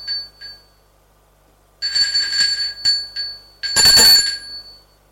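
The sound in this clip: A doorbell rings at an apartment door, giving a few bright electronic chiming bursts with gaps between them. The final burst is the loudest and longest. No one speaks.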